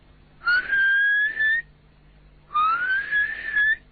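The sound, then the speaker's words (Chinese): Mouth whistling by an old Taoist nun climbing up out of a tunnel: two clear whistled phrases, each about a second long and gliding gently upward in pitch, separated by a short silence, with no talk. “老道姑爬上来了，嘴里打着口哨”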